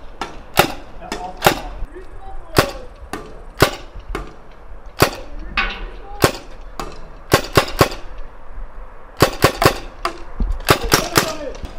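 A magazine-fed paintball marker fires balls in sharp, snappy pops, many shots in irregular clusters with short gaps, each crack loud and dry over a low background rumble.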